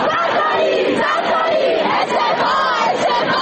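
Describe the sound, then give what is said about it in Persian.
Students protest over mass food poisoning at Kharazmi University's Karaj campus. A loud crowd shouts and chants together in a continuous, dense roar that holds throughout. “اینجا دانشگاه خوارزمی، واحد کرج. روز شنبه عده‌ای از دانشجویان در اعتراض به مسمومیت گسترده دانشجویان این دانشگاه از طریق غذاهای آلوده دست به تجمع اعتراضی زدند.”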